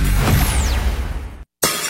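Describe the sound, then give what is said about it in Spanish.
A glass window breaks in a loud, sudden shatter with bright tinkling shards, followed by a brief gap of silence. “Ay, estos chamacos ya me quebraron el vidrio.”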